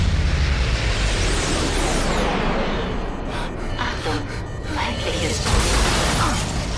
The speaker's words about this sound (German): Der zweite Torpedo zerstörte die Triebwerke. Eine gewaltige Erschütterung schleuderte Barney und die Crew zu Boden.